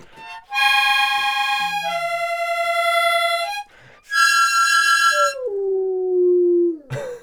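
A big brown ridgeback dog howls in two long, sustained, tonal howls with a short break between them; the second howl slides down in pitch near its end.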